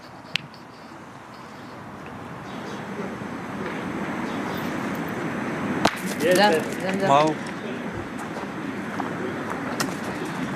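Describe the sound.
In a petanque match, a boule strikes another boule in a shot called a frappe, giving a single sharp metallic crack over steady outdoor noise. Voices follow briefly.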